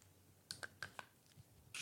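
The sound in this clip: A prosthetic leg clicks into its locking mechanism, giving a handful of soft, sharp clicks in an uneven rhythm. The clicks are faint and isolated, and the last one is a slightly longer rattle.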